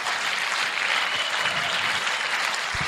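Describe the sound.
Audience applause welcoming a speaker onto a stage, a dense, steady wash of many hands clapping that stays loud and even throughout.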